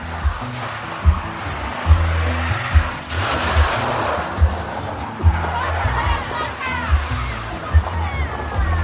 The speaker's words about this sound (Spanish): Un coche entra derrapando en el descampado.